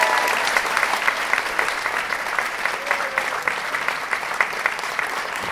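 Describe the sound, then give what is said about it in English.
An audience applauds to welcome comedian Elayne Boosler to the stage: sustained, even clapping from many hands with a busy, crackling texture and no break. “Please put your hands together and welcome Elayne Boosler. Here she is, folks, Elayne!”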